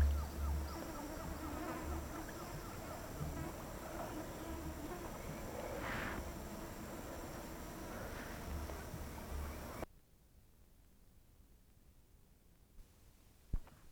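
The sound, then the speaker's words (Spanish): Bumblebees buzzing at their nest make a faint, steady drone for about ten seconds, which then drops away to near silence, broken only by a brief click near the end. “Puede ser el nido del abejorro, te toca revisar.”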